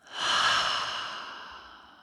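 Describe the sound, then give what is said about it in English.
A single deep breath during a guided relaxation exercise: a soft, airy rush that swells quickly, then tapers slowly over about two seconds, quiet and alone. “Deep, full breath in through the nose, out through the mouth.”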